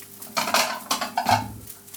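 Plates being taken out while someone cooks give a few faint clinks and clatters of dishes in quick succession, with quiet pauses between them.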